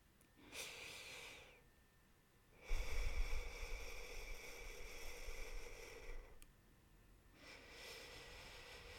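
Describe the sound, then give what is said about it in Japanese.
A person breathes out slowly when asked to: faint, airy breath noise with a short breath first, then a long, steady exhale lasting several seconds, followed by another soft breath, with no talking. “ちょっとゆっくり吐いてみようか。”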